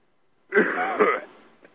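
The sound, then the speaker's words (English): A cough heard over a telephone line: one harsh, voiced burst with a second push partway through, narrow-band and muffled, followed by a faint short blip after silence. “excuse me for coughing on the phone”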